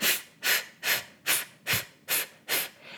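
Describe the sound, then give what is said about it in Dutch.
Seven short, evenly spaced puffs of breath are pushed out at the end of an exhalation. Each is a soft, hissy burst of air in a steady rhythm, fairly faint, with no voice. “Gebruik aan het einde puffjes om nog meer lucht uit te ademen. Dus als je voelt van ik zit aan het einde, maar er zit nog een beetje in, kan je eventueel dit gaan doen.”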